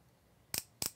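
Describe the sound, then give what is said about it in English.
A solenoid clicks twice in quick succession, two sharp, crisp snaps under a second apart. The clicks are quiet and stand alone over faint background hiss. “when I hover over, you probably just heard a little click, and right now it's waiting 10 seconds, and then it'll click again, so double click. You can watch the solenoid.”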